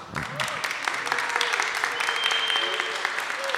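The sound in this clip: Applause from a festival crowd at a music event, many hands clapping in a busy, crackling stream that holds a fairly even level throughout, with voices mixed in.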